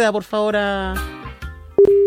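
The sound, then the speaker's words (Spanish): A telephone line tone as a call is placed. A steady mid-pitched tone cuts in abruptly after a voice and holds unbroken to the end. “proceda, por favor, a efectuar la llamada telefónica”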